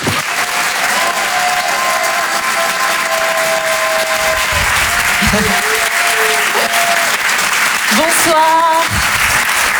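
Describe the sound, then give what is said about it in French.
An audience applauds and cheers a comedian arriving on stage at a stand-up comedy show. The clapping is loud and steady throughout, a dense wash of hands with cheering voices mixed in. “On va l'encourager et faire un maximum de bruit s'il vous plaît pour Hélène Cilo.”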